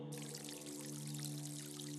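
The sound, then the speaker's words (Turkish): Water pours in a steady, continuous rush that fills the whole clip at an even loudness, with a low steady tone running beneath it. “Su sesi, dünyanın ortak sesi.”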